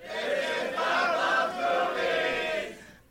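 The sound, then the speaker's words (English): Loud crowd yelling in unison, a live audience shouting the show's name at the opening of a movie-themed comedy show, a sustained roar lasting nearly three seconds before cutting off abruptly. “What is it that everybody's yelling at the beginning of Doug Loves Movies? It always sounds like this is Doug Loves Movies to me”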